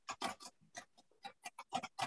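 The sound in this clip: Keys clack on a Perkins braille writer as the spacebar is pressed over and over while drawing a picture in braille: a quick, slightly uneven run of many sharp mechanical strikes with no voices.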